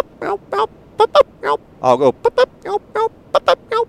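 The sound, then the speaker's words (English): A human voice imitates turkey hen clucks and yelps with many short, sharp, nasal calls in a quick, irregular series. Some come in close pairs, and they are loud and unaccompanied. “If, you know, if they cluck and then go into a yelp, I'll do that. If they yelp and then end with a cluck, I'm basically trying to mimic that hen.”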